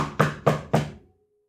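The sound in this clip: Three evenly spaced knocks on an office door, sharp and clear with nothing else heard, the last fading into silence.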